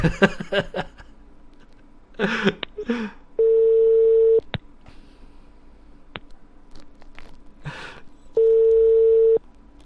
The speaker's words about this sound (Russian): Давайте еще раз наберем.